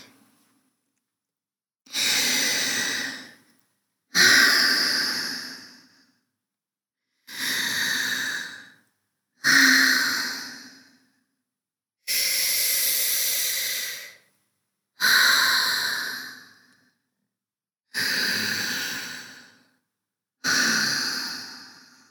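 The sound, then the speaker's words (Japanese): Slow, deep human breathing on guided instruction, eight long airy breaths spaced evenly with quiet pauses between, each swelling and fading smoothly. “呼吸を整えて、ゆっくり深呼吸して。”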